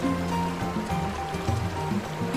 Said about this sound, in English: Now, water gushes past a rocky bank.